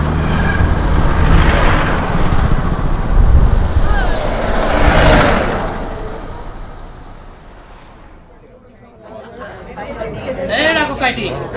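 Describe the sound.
Road traffic on a roadside near a market, with cars and motor vehicles passing: broad rushing swells that rise and fall, a quieter stretch, then more noise, with people chattering throughout.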